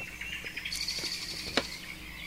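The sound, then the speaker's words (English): Birds and frogs call outdoors, with soft chirps and short tweets scattered over a quiet, steady background. “we're listening to the soothing sounds of birds and frogs playing together.”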